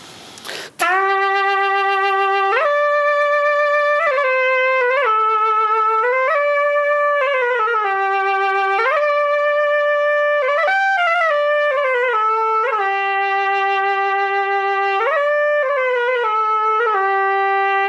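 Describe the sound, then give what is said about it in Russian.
A folk wind instrument played solo with a soft, violin-like tone, carrying a smooth melody of sustained notes that step up and down between a few pitches after a brief noise at the start. “Не скажешь, что это играет духовой инструмент. Звук очень мягкий, красивый, но душевный.”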